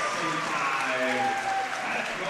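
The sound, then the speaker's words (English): The home crowd at a Boyertown Lady Bears girls' basketball game cheers and applauds, a dense steady wash of clapping with crowd voices mixed in. “So for Boyertown, the Lady Bears, 25-5. Big Boyertown crowd here today.”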